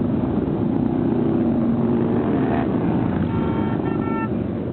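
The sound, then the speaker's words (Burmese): Loud, steady, dense rumble of thousands of motorcycles riding through the streets of Washington DC in a veterans' motorcycle rally, with a brief horn toot near the end. “ဆိုင်ကယ်စီးတဲ့သူပေါင်း3000နဲ့ချီဟာ Washington DC တစ်မြို့လုံးကိုလှည့်လည်ပြီးတော့မောင်းနှင်နေတာကြောင့်မိုးချိမ့်သန်လိုမျိုးကြားနေရတာပါ။”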